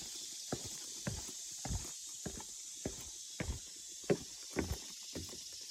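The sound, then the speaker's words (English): Soft footsteps on a trail at Gold Head Branch, Keystone Heights, landing in an even walking rhythm of about a dozen faint, dull steps, with a couple of slightly firmer footfalls near the end. “More steps, another turn, more steps.”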